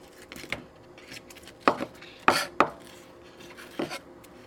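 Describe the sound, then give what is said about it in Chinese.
A kitchen knife chops an onion into small pieces on a board, giving several sharp, irregular strikes in quick pairs with short pauses between them. “那洋葱呢，我们要切的是小碎片。”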